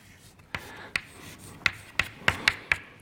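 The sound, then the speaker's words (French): Handwriting an equation: seven sharp, quiet taps and scratches of the writing tool striking the surface in an uneven rhythm, spaced across a few seconds, with no talking. “Donc je vais écrire que dφ sur dt”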